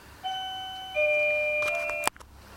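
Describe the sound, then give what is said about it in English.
Two sustained electronic tones from a ringing doorbell, the second entering higher and overlapping the first, then a brief flurry of clicks and a sharp knock-like hit that cuts the chime off. “we've had the doorbell ring and a few phone calls come in”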